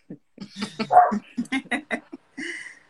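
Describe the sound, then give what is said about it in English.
A dog vocalizes in a rapid run of short yips and barks that vary in pitch, with a brief pause before a final bark. “And that's my dog commenting.”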